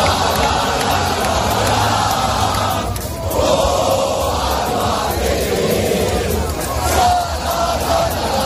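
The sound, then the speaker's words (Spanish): Albacete football fans celebrating at the park fountain, a dense, continuous roar of crowd voices with shouting and cheering that holds steady throughout. “El delirio se apoderó de Albacete y pocas horas después lo que se escuchaba en la fuente del parque era esto.”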